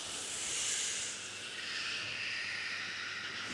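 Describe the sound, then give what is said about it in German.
Choir members inhaling together during a breathing exercise in a vocal warm-up led by a voice coach: a steady, airy hiss of many breaths drawn in at once, slightly fuller at the start and then holding even. “Und das Kinn rollt über den Brustkorb. Und einatmen.”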